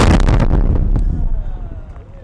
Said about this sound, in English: Soraya was standing next to a Marine who had just found and detonated an IED